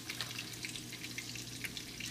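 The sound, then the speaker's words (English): Sliced sausage sizzles in a frying pan: a steady, hissing fry with small pops and crackles scattered throughout, no voices over it. “And then I cut those into little slices. And that's what's in the frying pan now.”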